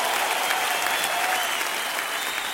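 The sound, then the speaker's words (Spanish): Applause from a worship crowd praising God, a dense, continuous wash of clapping that stays fairly loud and even through the short stretch with no breaks. “un aplauso al Señor fuerte”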